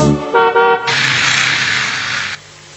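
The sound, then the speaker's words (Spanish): A car horn honks with short, bright tooting tones, then a loud burst of broad, whooshing noise holds for over a second before cutting off. No voices are heard. “¿Qué es? El auto se escuchó.”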